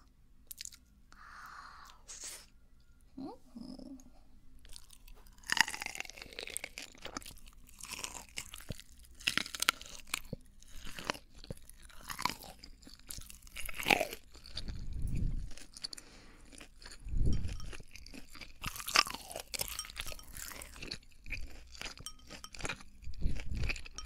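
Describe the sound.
Crunchy seafood being eaten: many crisp, irregular crunches and chewing sounds over about twenty seconds, with occasional deeper thuds and no talk over them.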